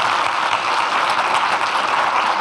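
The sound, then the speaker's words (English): Dense, loud audience applause as a comedy writer and actor is welcomed onto a stage, a continuous roar of many hands clapping that holds at an even level throughout. “So please put your hands together. Jessica Hines, welcome to the stage.”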